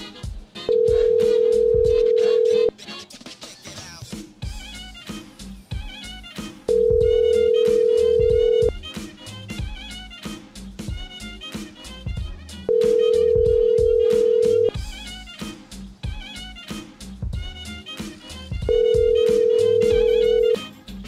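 An outgoing phone call rings through unanswered to voicemail, with four long, evenly spaced ringback tones about six seconds apart and busy background sound continuing between them.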